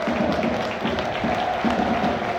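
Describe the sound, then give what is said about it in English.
Football crowd applauding a player at a Norwich City versus Millwall match, a steady, dense wash of clapping and crowd noise that holds at an even level throughout. “Imapu getting a good reception.”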